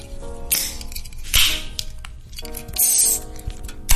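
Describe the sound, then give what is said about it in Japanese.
A can of beer is opened, with a few sharp, hissing bursts and crackles over a busy background of low rumble and clinks. No voices are heard. “早速ではございますが、ビール開けちゃいますか。”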